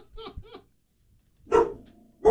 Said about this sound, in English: Was that a dog barking?